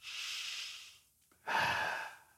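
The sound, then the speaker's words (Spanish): A slow, deep breath taken during a guided pause before prayer in a church service. A long, soft, airy rush is followed after a short gap by a second breath. No one speaks. “Por favor, tome un aliento conmigo. Inhale aire.”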